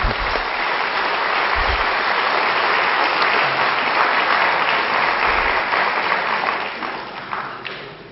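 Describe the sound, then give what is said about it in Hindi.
An audience applauds at a conference opening. The clapping is dense and continuous for about six seconds, then gradually fades out. “कुछ चंद हस्सों से आप ताली बजा दो दिव्य हस्तों से”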